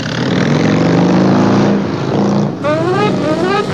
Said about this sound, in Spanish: El último huésped arrancó la moto y se alejó hacia Poniente, buscando la luz.